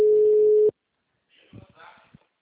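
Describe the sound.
A telephone busy signal gives one steady, mid-pitched tone that cuts off abruptly. After a short silence, faint voices talk briefly.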